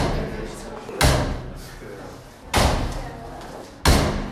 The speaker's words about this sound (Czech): Tak takhle bouchají dveře od čatny Mekyho Žbírky. Pořád tam někdo chodí, zase vychází